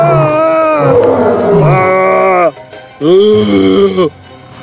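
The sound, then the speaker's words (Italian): A lion roars furiously after leaping from bushes. Two long, loud, growling roars carry rich harmonics; the first lasts over two seconds, and the second, shorter one follows after a brief pause. “improvvisamente dai cespugli saltò fuori un leone che ruggì furiosamente.”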